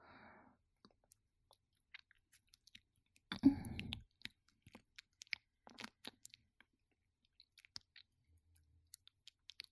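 Chewing and tasting food: faint, sparse wet clicks and small crunches in an irregular rhythm, with one denser, louder crunchy burst partway through.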